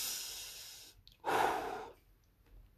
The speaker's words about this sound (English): I'm struggling to breathe. Take a deep breath.